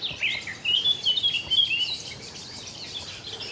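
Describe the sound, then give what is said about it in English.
Wild birdsong in the open among young aspens in spring: high, quick chirps and twittering, busiest in the first two seconds, then thinning out over a soft, even background. “So much bird life.”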